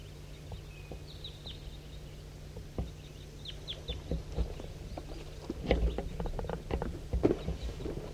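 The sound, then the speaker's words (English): Scattered high chirps and calls from a big flock of birds flying over a hollow, faint at first and then busier and louder in the second half, with a few low knocks and a steady low hum beneath. “There goes one way over the top, undulating over the top of the hollow. And there's another big flock somewhere.”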